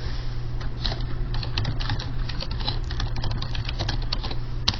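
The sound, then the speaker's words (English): Typing on a computer keyboard: a steady stream of many quick, light key clicks at an irregular rhythm over a constant low hum, with no talk. “You can type some new things.”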